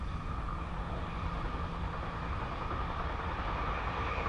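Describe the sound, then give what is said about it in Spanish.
A passenger train on its way to Austerlitz gives a steady, broad rumble and rattle with an even loudness throughout and no voices. “Hoy el tren cierra puertas de nuevo, sin complicaciones, y sigue avanzando.”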